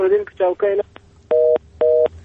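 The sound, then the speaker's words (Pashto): A telephone tone after a dropped call: a brief voice, then two steady, evenly spaced beeps. “متاسفانه د توریالی ورور تلیفون مونږ سره قطع شو”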